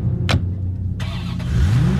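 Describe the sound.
A Corvette sports car engine revs: a steady mid-pitched motor drone with a brief sharp swish early on, then the engine note climbs in pitch toward the end, with no voices.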